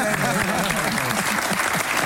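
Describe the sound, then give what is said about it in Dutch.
Applause from a group for a guest, steady, dense clapping at an even level with voices faintly underneath. “Nu applaus voor Jan.”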